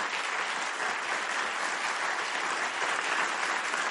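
Applause from a seated audience for a cellist who has just finished playing and is bowing; dense, steady clapping fills the whole clip at an even level, with no voices.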